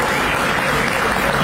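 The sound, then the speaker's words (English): Studio audience applause: dense, steady clapping that holds at an even, loud level from start to finish with no break. “You can clap if you want to clap.”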